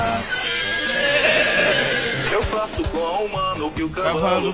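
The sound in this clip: A horse neighs in a loud, wavering whinny with a strong harmonic cry that rises and falls, followed by voices talking.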